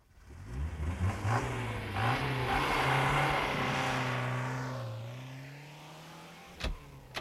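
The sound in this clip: A limousine driving without lights shoots out of a side street and stops across the road in front of another car. Its engine roars and climbs in pitch, holds, then winds down and fades, followed by a couple of short knocks.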